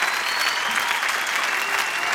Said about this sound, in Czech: A tak zatleskejme si.